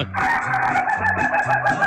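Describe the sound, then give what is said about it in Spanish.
A rooster in Colombia gives a laugh-like cackle rather than a crow, in repeated low, rhythmic bursts over a steady, bright hiss. “Es el único gallo en Colombia que no cacaraquea, no quiquiriquea, sino que se ríe.”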